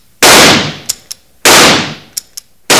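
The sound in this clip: Two loud rifle shots fired across a lake at two men in a canoe, each a sharp blast with a long fading tail followed by a pair of brief sharp clicks.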